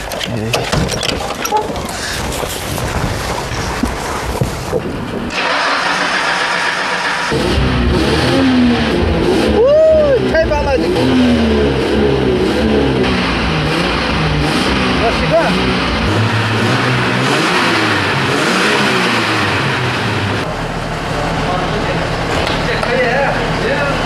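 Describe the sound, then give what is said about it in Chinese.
Car engine revving as the accelerator is pressed on a small vehicle used for desert dune driving. A loud, steady engine roar carries several swells of revving, with pitch climbing and dropping, while people talk over it. “我能不能上去塞一塞油门，听一下声音？ 发动，发动。”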